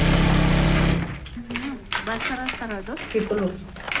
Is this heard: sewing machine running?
yes